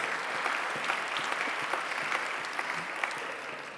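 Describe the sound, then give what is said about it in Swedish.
Warm applause from a church audience, a dense, steady patter of many hands clapping throughout at a moderate level, with no voices standing out. “Så jag tror att det är den varmaste applåden jag har fått hittills i den här församlingen.”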